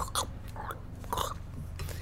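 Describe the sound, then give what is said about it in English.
A person chews food with wet, crunchy mouth sounds that come in a few short bursts at an uneven rhythm, fairly quiet and heard alone over a low steady hum. “And he starts chewing.”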